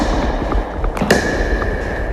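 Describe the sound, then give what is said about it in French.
Pickleball game, a perforated plastic ball struck with rigid paddles: a few sharp, hollow pops, two in quick succession mid-clip, over steady background noise. “Alors ça, c'est une raquette rigide, c'est une raquette de pickleball. Vous avez une balle en plastique perforée. Et là, je vous laisse déjà découvrir, puis on en reparle après.”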